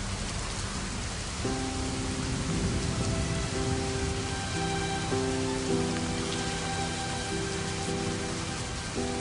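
Heavy rain pours down in a dense, continuous hiss of drops striking surfaces without any let-up. Faint sustained musical tones come in underneath after the first second or so.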